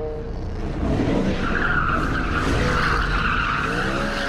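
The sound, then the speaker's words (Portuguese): Car tires skid and squeal as a car swerves sharply on a city avenue: a loud, continuous rubbery screech over a low engine rumble, holding steady for about four seconds with no voices. “Yan vira o volante de uma só vez.”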